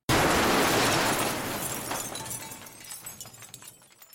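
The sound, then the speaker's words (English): A single gunshot cracks out as one loud, abrupt burst, then trails into a long, crackling, gradually fading tail lasting several seconds. “A bullet shot rings out, ending the discussion.”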